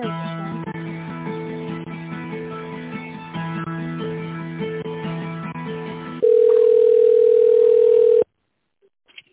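Telephone line tones during a call transfer: a looping electronic melody gives way to a loud, steady single tone lasting about two seconds, which then cuts off abruptly into silence.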